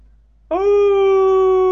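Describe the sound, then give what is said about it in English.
A voice imitates a creature's ear-piercing howl, meant as a monstrous creature rather than a dog. One loud, sustained, steady-pitched tone begins sharply after a brief quiet and holds to the end. “He tilted his head to the sky and let out an ear-piercing howl. Ooh! But more ear-piercing. Not the howl of a dog, a creature howl.”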